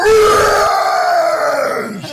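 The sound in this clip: A voice imitating a giant ape's victory roar: a loud, strained, growling bellow held for about two seconds, sinking in pitch as it trails off.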